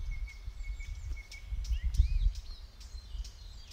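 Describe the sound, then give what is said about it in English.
A male song thrush sings during a dawn chorus, giving short whistled and chirping notes in quick succession over a steady low rumble, with a few other faint bird calls mixed in. “And you may also just there have heard another male song thrush.”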